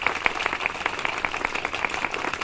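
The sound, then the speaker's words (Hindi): Audience clapping just before a puppet show, heard as sharp, separate claps at a fairly steady pace. It is moderately faint and thinner than full applause. “भाइयों बहनों और प्यारे बच्चों, अब शुरू होने जा रहा है कठपुतलियों का खेल, लेकिन उससे पहले जोरदार तालियों।”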